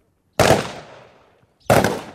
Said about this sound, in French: Chaque homme a une cible à 3 pas de lui et il doit lui tirer face à face.